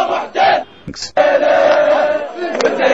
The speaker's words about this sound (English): That's the sound of 1,500 people in Baghdad demanding that their fellow Iraqi be released for standing up for his country's honor against the occupier George W. Bush with a pair of shoes.